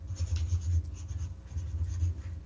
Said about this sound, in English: Albert Kelly. I'm going to write that down.